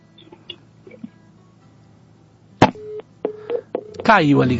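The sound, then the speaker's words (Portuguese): A telephone line after a dropped call on a live call-in radio show gives a few short, steady, mid-pitched beeps with clicks between them. A voice begins speaking at the end. “Caiu a ligação. É assim mesmo, programa ao vivo, nós temos isso. O programa caiu, a linha caiu”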